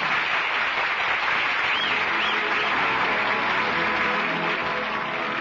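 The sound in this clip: Theater audience applauding at the curtain call of an original Broadway play at the Little Theater: dense, steady clapping that stays even in loudness throughout, with no voices standing out.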